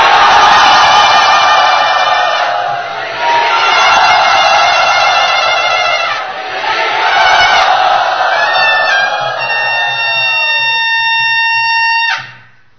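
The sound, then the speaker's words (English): Loud crowd cheering in welcome at Sri Radha Gopinath Temple, sustained shouts and whoops swelling in a few waves before cutting off abruptly just before the end. “But please, let us, with tears in our eyes of gratitude to him, loudly welcome him to Sri Radha Gopinath Temple.”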